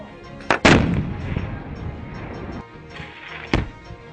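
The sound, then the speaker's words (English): C4 explosive charges detonate during an engineer training exercise: two sharp, loud blasts close together, then another after a pause, each followed by a rolling rumble. “The senior engineers tested various types of charges with the C4 explosives and shared their knowledge with the young troops. The results were explosive.”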